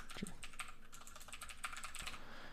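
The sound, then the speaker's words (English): Typing on a computer keyboard: a steady run of quick, light key clicks goes on throughout, with no talking. “Now the last thing that I'll list off here, I'll go ahead and type it out.”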